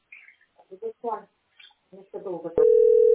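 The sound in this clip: A telephone dial tone cuts in abruptly after a few short phrases of speech, then holds as a steady, continuous mid-pitched hum to the end.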